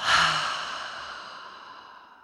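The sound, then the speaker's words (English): A long breath pushed out through the mouth during a guided breathing exercise: one soft, airy whoosh that starts strongest and fades slowly over about two seconds, with no voices. “Breathe in through the nose, big full breath here. Out through the mouth.”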